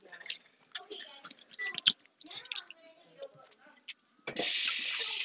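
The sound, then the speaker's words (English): Tap water runs while hands are washed before making burgers. A steady, bright hiss starts abruptly near the end and follows a stretch of talking with small clicks and handling noises. “So let's wash your hands.”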